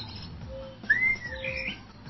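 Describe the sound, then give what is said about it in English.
Bird song plays from a radio stream: a few thin, faint whistled notes, one sliding smoothly, over a low steady background hum. “There's a bird song radio. Okay, I tell you what, I can just play that and give you a little bit of this.”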